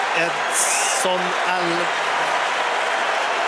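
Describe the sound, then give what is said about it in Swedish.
A stadium crowd applauds and cheers as Mexican substitute Edson Alvarez comes on at a World Cup football match. The clapping roar is steady throughout, under a commentator's voice. “Edson Alvarez. Det är honom publiken jublar åt.”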